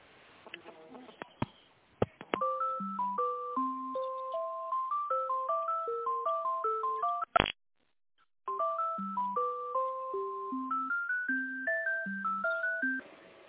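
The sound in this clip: An electronic melody of beeping tones plays over a phone line while a call is transferred to a manager. The pitched notes run steadily, with a brief click and a short silent pause partway through.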